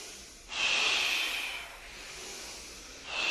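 Forceful inhales drawn sharply through the nose during a kriya meditation breathing exercise: a loud, airy hiss lasting about a second, a softer breath, then the start of another strong inhale.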